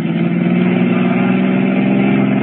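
A car engine accelerates during a radio drama chase scene, a loud, steady, rumbling drone that holds at full strength for the whole clip.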